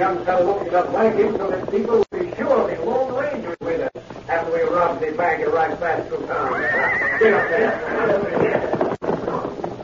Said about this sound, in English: Also, one of the horses whinnied as they passed.